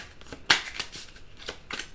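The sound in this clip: Cards shuffled and drawn for a tarot reading make a series of soft, papery riffles and taps, opened by one sharper snap, with no voices.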